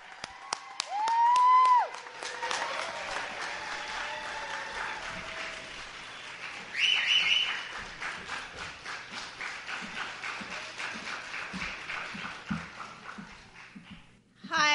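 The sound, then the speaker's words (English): An audience in Santa Cruz applauds to welcome a speaker, with many rapid claps that run steadily for most of the stretch before stopping. “And everybody give her a warm, loud welcome.”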